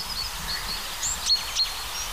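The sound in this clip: Two brief, high-pitched chirps from a small songbird, thought to be a chaffinch or great tit. They come close together and sound faint against a soft, steady outdoor background.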